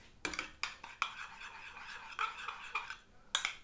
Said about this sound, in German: Genau, dann verquirlst du das erstmal ein bisschen.